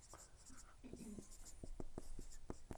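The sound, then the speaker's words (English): Handwriting: quiet, scratchy strokes as someone writes out words, a few short scrapes followed by a string of sharper taps and strokes, all faint. “let me write the Hebrew Bible”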